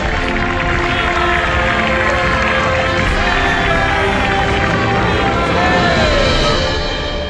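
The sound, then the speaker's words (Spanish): A crowd cheers in greeting to a pharaoh, a dense and loud continuous roar of many voices that holds steady for about seven seconds with little variation. “La muchedumbre saluda muy ilusionada y el faraón la contempla desde la altura, agradeciendo el gesto de los súbditos.”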